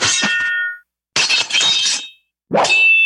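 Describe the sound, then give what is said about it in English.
Three sword-cut sound effects, used to mark breaking a code, strike as sharp slashes with a glassy, metallic ring that lingers briefly. Each is separated from the next by a short silence, with no voices. “And then there was the sword cuts for breaking the code.”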